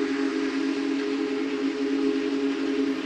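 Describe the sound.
Whistle of a Big Boy steam locomotive: a loud, steady, low-pitched chord that is held unbroken through the whole clip. There is no talk.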